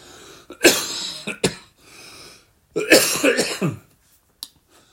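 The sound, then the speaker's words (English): Coughing and throat clearing from a preacher during a church sermon: several loud, harsh bursts in separate clusters, with a final short cough, heard alone without talk. “excuse me, my cough hasn't left me yet.”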